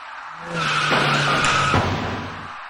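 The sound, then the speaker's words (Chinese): Tires skidding in a sustained screech during a late-night traffic accident at a city intersection involving an electric bicycle, rising in over half a second, holding loud for about two seconds, then fading. “就在这时，一起严重的交通事故发生了。”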